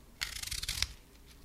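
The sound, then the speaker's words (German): A knife cuts through a crisp, juicy Diva apple, giving a faint, quick burst of crackling, snapping crunch that lasts about half a second before fading to quiet. “Man schneidet jetzt hier einen Apfel auf. Wirklich knackig, saftig. Man hört es hier.”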